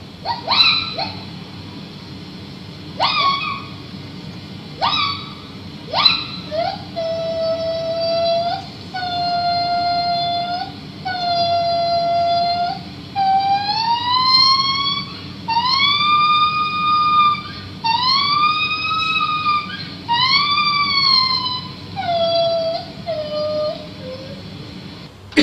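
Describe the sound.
Female gibbon singing, a loud solo call that opens with separate short whooping notes, then stretches into sustained hoots and repeated rising swoops, heard over a faint low background hum.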